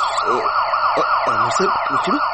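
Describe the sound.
A police car siren wails in rapid, repeating rising-and-falling sweeps, loud and continuous throughout, while voices talk beneath it.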